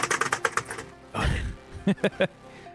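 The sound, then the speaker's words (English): Rapid typing on a computer keyboard: a fast, even run of crisp keystrokes, then a heavier thudding burst and a few more sharp, separated taps. “There's a lot of rapid fire typing.”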